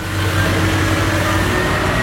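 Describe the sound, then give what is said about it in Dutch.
Engine drone of a truck on its way to restock a supermarket in the Netherlands or Belgium, a loud, constant mid-pitched rumble that holds steady without pauses. “Dat is er een vrachtwagen op weg naar een supermarkt in Nederland of België om te bevoorraden.”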